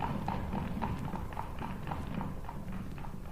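Hooves of a horse pulling a light open carriage as it sets off, a brisk, steady clip-clop of many hoofbeats in an even rhythm, moderately quiet over a constant low rumble.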